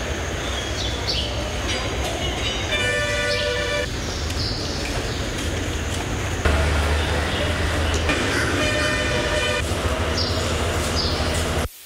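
A train at a railway station rumbles steadily, with bursts of high, squealing wheel tones rising out of the heavy, continuous rail noise.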